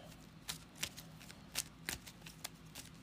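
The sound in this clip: A deck of game cards is shuffled by hand, making many soft, quick papery flicks in an uneven rhythm. It stays quiet throughout.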